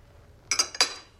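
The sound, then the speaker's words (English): China and cutlery clink at a breakfast table as tea is poured into a cup and toast is cut: a few quick, bright clinks in close succession over quiet room tone. “Margaret cuts a piece of toast as he pours her a cup of tea”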